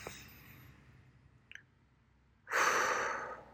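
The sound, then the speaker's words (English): A person demonstrating a deep breath: a faint breathy sound, a quiet pause, then one long, loud exhale like a heavy sigh. “Take 5 deep breaths like this.”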